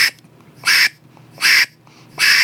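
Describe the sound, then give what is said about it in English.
Three loud, nasal quacks blown into the back of a duck call, each a short buzzy burst evenly spaced with quiet gaps between, no talk over them. “we'll communicate with people and just blow into the back of the call. That way people can hear it. So whether you're going, so I'm literally going quack”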